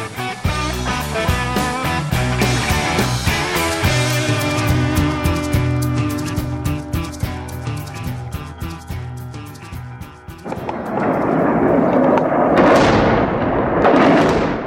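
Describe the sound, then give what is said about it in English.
Bombs strike a rebel-held town near Damascus, Syria, in early June. Heavy, rumbling blasts fill the last few seconds, following a long, dense stretch of sustained tonal sound. “The sound there are bombs launched by the Assad government hitting Daraa, a suburb of Damascus, in early June.”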